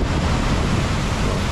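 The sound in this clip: Ocean surf at the shore of a bay, with waves breaking and water rushing back out. A steady, loud, broad roar of churning water fills the whole moment, with no voices.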